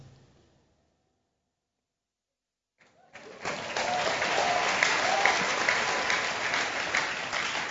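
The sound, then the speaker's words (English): A worship-service crowd gathered outside under a canopy bursts into a loud shout after a near-silent pause, the mass of voices swelling suddenly and holding as a dense, roaring din to the end. “those people that are under the canopy outside, can you shout hallelujah?”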